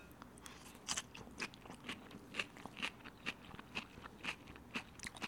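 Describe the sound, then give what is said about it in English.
Crisp crunching of a salad being chewed, with many quiet, evenly spaced bites forming a steady rhythm, alone and without talk. “as you can hear, it very much sounds as if I am chewing on a salad.”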